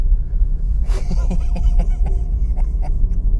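A car on snow tires drives over fresh snow, giving a steady low rumble with scattered crunchy crackles from the tires gripping the surface.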